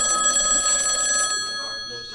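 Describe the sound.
A telephone rings once for an incoming call, a bright, high-pitched electronic ring that lasts about a second before fading away into quiet.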